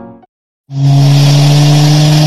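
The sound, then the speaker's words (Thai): A car engine roars as it is driven fast through traffic, kicking in abruptly after a brief silence and holding a loud, steady, deep drone. “นี่คุณขับรถอะไรเร็วขนาดนั้นน่ะดูข้างหน้าด้วยสิ”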